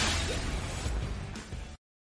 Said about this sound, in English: As I fix my baseball hat there, sorry about that.